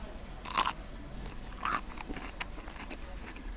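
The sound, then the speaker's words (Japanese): Crunchy bites into a whole soy-marinated cucumber on a skewer: two sharp, crisp crunches followed by softer crackling chewing. “これシャキシャキしてすごい歯ごたえ、きゅうりの。”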